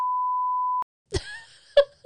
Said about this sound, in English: You have to beep that out, too.